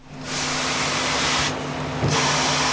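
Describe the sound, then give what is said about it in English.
A bright yellow robotic arm whirs on an automotive supplier's assembly line in Bad Neustadt, northern Bavaria, placing freshly oiled bolts onto a blue plastic tray. A steady mechanical whine rides over a low hum and dips briefly midway. “Bright yellow robotic arm carefully places freshly oiled bolts onto a blue plastic tray along an assembly line run by the Jopp Group, an automotive supplier in the town of Bad Neustadt in northern Bavaria.”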